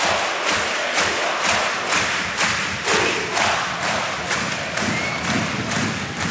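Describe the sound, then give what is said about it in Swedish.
Ice hockey crowd in a Gothenburg arena singing and chanting after a goal, a dense, loud roar carried on a steady rhythmic pulse of beats. “3-2 till Frölunda mot Växjö, och ni hör vad de sjunger i Göteborg.”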